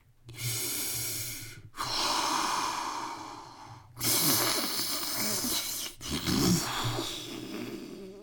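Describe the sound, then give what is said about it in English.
Deep breathing, drawn in through the nose and let out through the mouth as a calming exercise. Four long, steady breaths come one after another, each loud and airy with a soft hiss, with no talk over them. “Take some deep breaths in through your nose and out through your mouth.”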